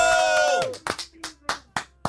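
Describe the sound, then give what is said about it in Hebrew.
Audience clapping breaks out as a held voice fades: a handful of sharp, separate claps follow at a fairly even, rhythmic pace. “רגע, כפיים!”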